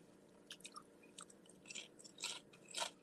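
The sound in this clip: Faint crisp crunching as someone chews pickles with both sides of the mouth: many irregular, snappy bites and squelches with no talking.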